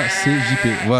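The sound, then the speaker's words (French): Sheep bleating sound effect played by a radio control room, with loud wavering bleats while a voice talks over it. “Et sinon, on entend le bruit de... Le mouton. Bruit de la régie qui va arriver.”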